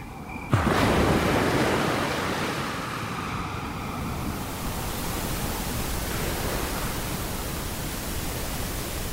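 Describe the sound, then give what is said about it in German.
Ocean waves heard as a steady, full rushing surf that continues without a break, broad and even, with a brief sharp onset at the very start. “Ganz viele Leute hören sich ja Wellen oder weißes Rauschen an. Meereswellen.”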